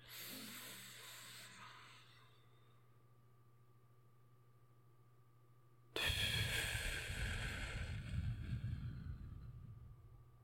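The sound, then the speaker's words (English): A person draws a soft, hissing breath in through the nose, holds it for a few seconds of near silence, then lets out a louder, rushing exhale through the mouth that slowly fades. “Breathe in again through your nose. And as you're doing that, close your eyes shut. Keep them tightly clenched. And then hold the breath for a couple seconds and exhale through your mouth.”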